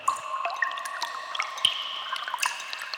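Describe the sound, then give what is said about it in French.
Water drips and trickles down damp cave walls: many small, bright drops fall at irregular moments over a soft, steady trickle, all fairly faint. “Dans la grotte, il fait humide. Les parois de la grotte ruissellent.”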